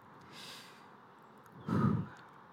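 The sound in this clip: Breathing sounds as a church audience is led to breathe together during a service: a soft, airy inhale, a pause, then a heavier, louder exhale, all quiet with no talk.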